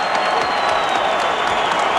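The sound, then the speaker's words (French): Loud, continuous applause and cheering from a standing stadium crowd at an athletics event, greeting a silver medal. The dense roar holds steady without pauses. “Une ovation monstre. Les gens sont debout, mesdames et messieurs.”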